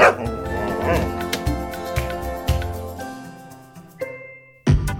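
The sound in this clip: A dog barks and yips several times, loud and sharp, with a brief whimpering note, over a steady tonal background.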